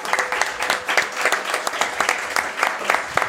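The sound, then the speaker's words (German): A short burst of applause from a live audience at a stage comedy show, steady brisk clapping that holds at an even level for about three seconds. “einen Mini-Applaus bitte ganz zwischendurch für den Komponisten, der heute auch hier ist, der Philipp.”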